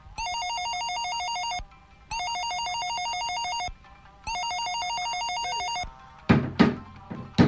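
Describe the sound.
Electronic warbling telephone ringtone on an outgoing call placed for a radio interview: three bursts of rapid, trilling rings of about one and a half seconds each with short gaps, then a few clunks of handling noise.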